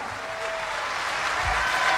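Audience applause honouring a cumbia performer, a continuous hiss of many hands clapping that swells slightly toward the end.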